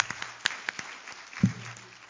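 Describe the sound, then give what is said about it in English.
Faint, scattered handclaps of praise from a church audience honoring its ushers: a handful of sharp, separate claps spread unevenly, with a brief voice near the end. “So let's give them a hand clap of praise.”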